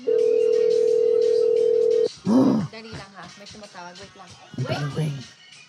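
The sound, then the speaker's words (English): A steady, single-pitched ringing tone on an outgoing phone call holds for about two seconds and then cuts off, followed by people talking. “Yes, it's ringing.”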